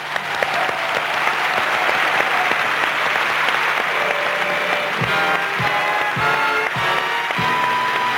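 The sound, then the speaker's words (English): A large audience gives loud, sustained applause to welcome a musician onstage. The dense clapping stays steady throughout, with scattered cheers rising above it toward the end. “Welcome him, dargli il benvenuto con un grandissimo applauso enorme a Paul McCartney!”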